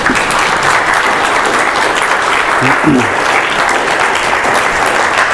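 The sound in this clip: Audience applause welcoming a guest pastor at King's Church, loud, steady and continuous clapping from a crowd that holds throughout without fading and with no talk over it.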